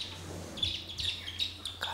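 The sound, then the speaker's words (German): High peeping of chicks three to six days old: many short, repeated chirps in an uneven run over a low steady hum. “Deswegen scheuche ich jetzt die Küken mal rüber. Ja, kommt mal her. Die Zwerge sind 3 bis 6 Tage alt.”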